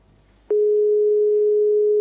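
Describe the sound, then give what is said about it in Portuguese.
Telephone dial tone after a dropped call: a loud, steady single-pitched tone begins abruptly after faint low noise and continues unchanged to the end. “quero parecer-nos que a chamada caiu”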